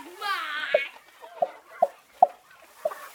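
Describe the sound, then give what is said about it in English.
A human voice imitates chickens clucking in unison: a drawn-out squawky note opens, then a string of short, punchy clucks follows at a fairly steady rhythm, moderately quiet. “all around him, the other 30 chickens stared at him with huge eyes and in unison went”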